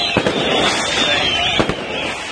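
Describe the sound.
Fireworks and firecrackers go off at a nighttime celebration in Gaza: two sharp, loud bangs cut through a steady high whistle and a constant crackling hiss.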